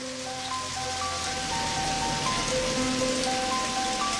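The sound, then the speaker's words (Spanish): Heavy rain falls at night as a steady, dense hiss that stays even throughout, with sustained musical tones above it. “Es de noche y llueve intensamente.”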